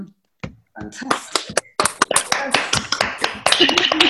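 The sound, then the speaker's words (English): An online audience on a video call unmutes to applaud an arts panel. After a short silence, scattered taps and claps start and build into uneven, overlapping clapping, with voices mixed in. “Okay, let's unmute everybody and give our panel a round of applause.”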